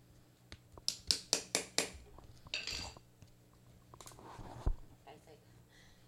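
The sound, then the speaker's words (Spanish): A microphone falling: a run of about five sharp, clinking knocks early on, then scraping and rustling handling noise and a single heavy low thud, all under faint speech. “Se me cayó el micrófono.”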